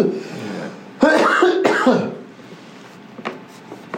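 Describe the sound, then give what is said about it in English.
A smoker's cough: harsh, raspy bursts of coughing and throat clearing, loudest in a cluster near the middle. Quieter rough throat noises follow. “Smoker's cough.”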